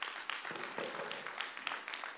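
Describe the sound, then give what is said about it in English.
Audience applause for actors taking a bow, a faint, steady patter of clapping from a group that holds evenly throughout. “Can I get a round of applause? And I'm going to bring up our actors for a bow.”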